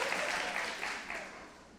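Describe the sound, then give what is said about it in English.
Audience applause, a dense wash of clapping that holds steady and then slowly thins and fades toward the end. “It was not worthy of an applause, I'll appreciate it, but the bar is pretty low if we're clapping about that.”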